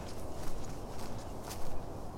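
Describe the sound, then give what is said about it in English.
Footsteps on a walk through Withlacoochee State Forest, soft and faint, landing at an uneven pace with a few slightly firmer steps among them. “Don't know how far I'm walking today, but looking at the map,”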